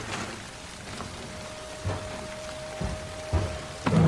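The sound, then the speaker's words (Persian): Rain comes in through a broken window frame as a steady, soft hiss of falling water, with a few louder taps or splashes near the end. “بسته نمیشه، شکسته. بارون داره میاد تو قاب شکسته.”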